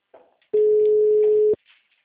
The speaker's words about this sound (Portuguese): ele não tá me atendendo. O número está ocupado.